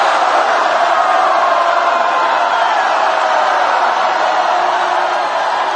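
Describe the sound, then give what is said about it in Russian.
A crowd shouts 'Hurrah' together on command, many voices merging into one loud, sustained roar that holds steady throughout. “Набрали воздуха и по моей команде на счет три. Раз, два, три! Ура! Ура! Ура!”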